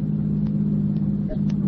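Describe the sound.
A car driving home at night produces a steady low engine hum and rumble, even in level and pitch throughout, with no other sounds standing out.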